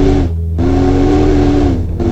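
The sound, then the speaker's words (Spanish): Distant deep whistle, not a train's, sounding as a sustained low, powerful tone that is loud and steady, broken by two brief pauses. “Un silbato distinto resonó a lo lejos. No era del tren. Era mucho más grave, más antiguo, más poderoso.”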